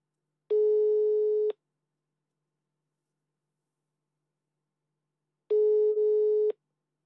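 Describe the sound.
Ringback tone of an outgoing phone call that goes unanswered: two steady, buzzing one-second tones separated by a long silence.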